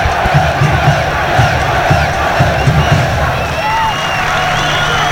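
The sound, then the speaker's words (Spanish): Live football crowd at Estadio El Teniente in Rancagua for O'Higgins against Universidad de Concepción. A loud, continuous roar of voices, with rhythmic low pulses through the first few seconds. “Sonido en directo desde el Parque Estadio Codelco, el Teniente, la emoción del fútbol”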